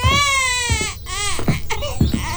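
A baby cries hard and without pause, a high, strained wail in a few long bursts broken by short catching breaths, loud and close to alone.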